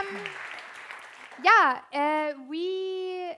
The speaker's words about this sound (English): Applause for Dani Wirth.